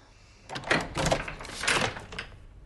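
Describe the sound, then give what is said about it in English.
A chained door is pulled ajar, giving a few brief clattering, rattling bursts of moderate loudness over about two seconds, with no voices. “He pulls the chained door ajar.”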